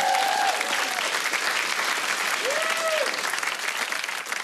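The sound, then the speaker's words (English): Audience applause welcoming a gamer guest onto a stage: loud, dense clapping that holds steady for several seconds and eases slightly at the end, with brief voices heard over it. “Let's welcome to the stage, Hex. Put your hands together.”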